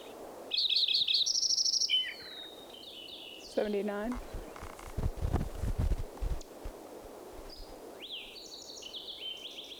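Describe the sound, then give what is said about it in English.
Fox sparrow song: several bright whistled phrases with sliding notes among other birdsong, with brief low rustling bursts partway through. “Fox Sparrow mixed in there.”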